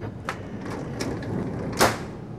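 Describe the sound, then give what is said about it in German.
A door is opened against a constant rushing background, with a few soft knocks and a louder scraping burst near the end. “mach sofort die Tür auf.”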